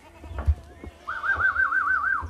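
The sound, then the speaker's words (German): A goat gives a single wavering, quivering bleat as a herd of 300 goats leaves a narrow stable for open heathland. Soft rustling and a few dull thumps of movement run underneath. “300 Ziegen machen sich auf den Weg, raus aus dem engen Stall, auf in die Weite der Heide.”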